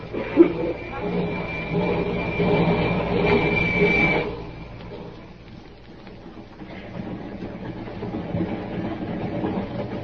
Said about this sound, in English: The train was a few minutes out of Glendale.